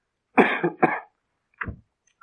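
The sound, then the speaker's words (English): Several harsh, dry coughs: two heavy bursts close together, then a shorter, softer cough after a brief pause, with silence between them and no talking. “I'll keep you awake, my coughing.”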